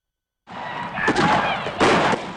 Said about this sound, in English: Bullets pepper the judge's window. That's the 10th window broken in 2 weeks.